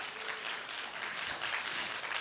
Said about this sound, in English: You know, one of these days, you're not going to golf clap when I give you numbers like that.